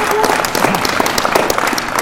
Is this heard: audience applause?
yes